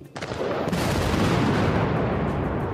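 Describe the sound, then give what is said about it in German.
Explosive demolition of a very large, very tall motorway bridge in North Rhine-Westphalia: a sudden loud blast that swells at once into a heavy, sustained roaring rumble. “Wow, das hört sich gewaltig an. Und das war es auch. Hier wurde gerade eine sehr große und sehr hohe Autobahnbrücke gesprengt.”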